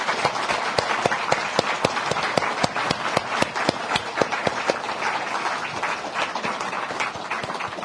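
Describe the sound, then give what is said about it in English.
An audience gives a round of applause after a foreign minister's address and question session. Many sharp individual claps cut through a steady wash of clapping, which thins out gradually toward the end. “by show your appreciation by giving a round of applause to Ms. Wong.”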